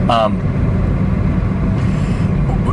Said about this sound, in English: so now I'm driving back